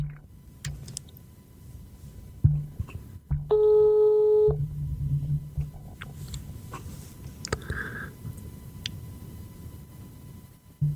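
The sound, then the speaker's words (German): A telephone ringback tone sounds while a call is being placed: one steady, buzzing tone burst of about a second, over a low constant hum and a few faint clicks. “Ich rufe ihn mal an und dann hören wir mal, was so passiert.”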